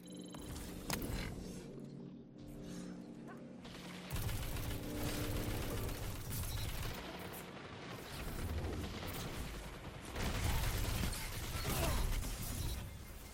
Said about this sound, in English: they'll walk into the stream of bullets.